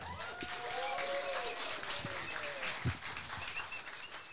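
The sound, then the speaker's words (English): Audience applause and cheering at an evening event greets the MC as he comes on stage. The clapping is dense and continuous with voices mixed in, and it holds steady throughout. “Can you all put your hands together and welcome to the stage your MC for tonight, David Cullen.”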